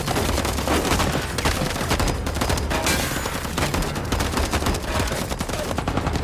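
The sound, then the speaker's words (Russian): Sustained heavy gunfire as soldiers open fire on a van in a film scene: a loud, dense barrage of many overlapping shots that runs without pause, with no talk. “Люди в военной одежде поднимаются с земли, открывают огонь по фургону.”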